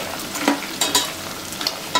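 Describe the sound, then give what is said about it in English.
Bacon fries in a pan in its own fat, frothing with bubbles. A constant hiss carries crackles and several sharper pops that rise and fall unevenly. “Now you can see the bacon frothing. You can see all those bubbles and it's almost there.”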